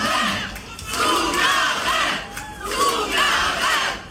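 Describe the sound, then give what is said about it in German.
An audience at a stage show chants for an encore, its massed voices shouting in unison and rising and falling in rhythmic waves, loud and raucous. “Zugabe, Zugabe. Kaum geht sie einen Schritt zurück auf der Bühne, wird's ruhig.”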